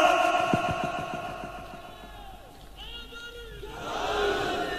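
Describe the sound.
At a religious gathering, a crowd shouts a religious slogan in response to a call. A single voice is heard first, then the crowd's loud massed shout rises near the end.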